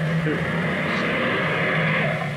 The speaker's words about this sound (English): Here comes the car, Danny.